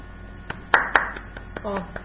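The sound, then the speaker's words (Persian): Children applauding a classmate with sparse, scattered hand claps, a handful of sharp separate claps spread out, with a brief voice among them. “بچه ها مهیه رو هم تشویق کنیم.”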